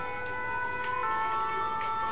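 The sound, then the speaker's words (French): An ambulance siren wails as a steady, fairly faint tone with no talking over it, holding its pitch for about two seconds. “C'est pas la police, c'est l'ambulance.”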